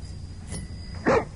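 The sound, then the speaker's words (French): A dog gives a single short, mid-pitched bark near the end, alone over a low, steady background hum. “Et un chien. Un chien.”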